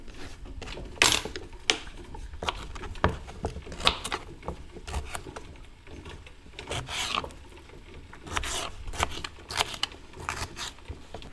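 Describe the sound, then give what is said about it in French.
A black radish is peeled and roughly chopped before going into a jar. Irregular bursts of rough rasping scrapes and short cutting strokes come through fairly faintly, with no talk. “Donc il faut soit un réfort ou un radis noir, un demi en fait. On va l'éplucher. Et puis on va le couper grossièrement et on va le mettre dans le bocal.”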